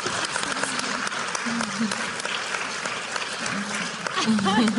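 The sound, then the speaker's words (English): Audience applause for a woman at a show, a steady clatter of many hands throughout that swells louder near the end, with voices talking over it. “You need to applaud Hannah.”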